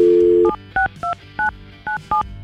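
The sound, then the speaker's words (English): A telephone is dialed to make a call: a steady dial tone cuts off into a quick series of short, loud keypad beeps in an uneven rhythm. “we're going to call her, find out her side of the story because he gave us her phone number.”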